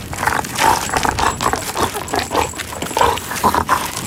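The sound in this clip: A puppy in a home yard makes many short snuffling grunts and yips in quick, irregular bursts over a steady, noisy background.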